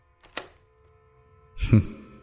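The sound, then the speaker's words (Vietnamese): A door lock clicking shut, a faint, sharp click followed just over a second later by a heavier, dull thunk, both quiet against near silence. “Phía sau một giọng nói cũng lạnh lẽo không kém cất lên, kèm theo đó là một tiếng khóa cửa, cạch một cái.”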